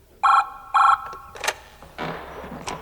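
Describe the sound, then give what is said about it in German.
A telephone ringing tone heard on the line while a hotel switchboard call is being connected: two short, buzzy rings in a row, followed by a few clicks and faint line noise. “So ließ er den Hörer noch am Ohr, bis er wusste, dass die Verbindung auch zustande gekommen war.”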